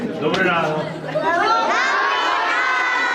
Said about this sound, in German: Dort war Anfang Woche landesweit Schulstart und Präsident Volodymyr Zelensky hat eine Klasse besucht und die Kinder begrüßt. Das zeigt ein Bericht von CNN.